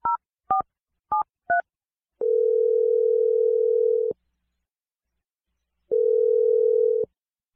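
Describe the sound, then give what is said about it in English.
Telephone tones as a call is placed: four short keypad dialing beeps in quick succession, followed by two long, steady electronic tones separated by a pause of silence. “All right, I'm going to dial number right now. Here we go.”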